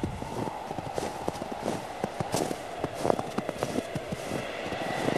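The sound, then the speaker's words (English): Footsteps crunching across ice, a steady run of many short, crisp steps at an even walking pace, alone and fairly faint. “So you decide to head back towards your shelter. You walk away from the plain of ice.”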